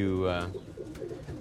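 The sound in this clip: A pigeon coos among birds kept with week-old chicks and used to people handling them: one low, throaty, harmonic coo in the first half second, then softer murmuring sounds.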